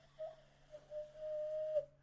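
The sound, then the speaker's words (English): A hand whistle blown through cupped hands gives a pure, hollow, mid-pitched hooting tone: a few short notes, then one long steady held note that stops abruptly. “Can you do the hand whistle thing?”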